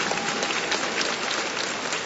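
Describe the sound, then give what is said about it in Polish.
Audience applause for a graduate who has just received her diploma after defending her master's thesis; a dense, steady wash of clapping holds at an even level for the whole two seconds. “Dlatego brawa dla Madzi, gratulacje, które przesyłamy ze Szczecina.”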